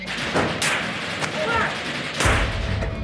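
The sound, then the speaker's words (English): Sniper and rocket fire from ISIS fighters in a battle involving Kurdish fighters, with bullets striking nearby walls. Sharp, loud cracks come at irregular intervals, and one heavier blast adds a deep low rumble over steady background noise. “We've been pinned down by ISIS sniper fire and now rocket fire.”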